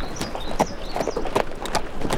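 A ridden horse's hooves clip-clop as it sets off toward a mining camp. Several separate hoof beats fall at an easy, uneven pace, fairly soft against a light background.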